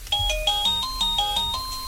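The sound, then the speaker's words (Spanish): A doorbell at a house door chimes a quick run of bright melodic electronic tones, clear and alone with no voices. “Es la puerta que alguien llama para entrar. Le he puesto un timbre.”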